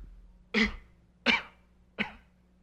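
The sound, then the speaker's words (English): Three coughs from someone with a cold and a sore throat: short, harsh bursts, evenly spaced and alone against near silence. “hear me cough”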